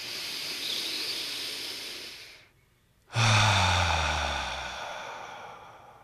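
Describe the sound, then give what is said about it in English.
Deep breathing during a guided breathing exercise: a long, steady hiss of air drawn in through the nose, a short silent pause, then a fuller, lower exhale out through the mouth that gradually fades. “take a rich breath in through your nose. Breathe out through your mouth.”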